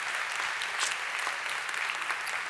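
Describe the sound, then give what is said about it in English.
Steady applause from a church audience welcoming back college students, a dense, even patter of many hands clapping throughout with no voices over it. “So Summit Church at all of our campuses, would you put your hands together and welcome back this very important population of our church.”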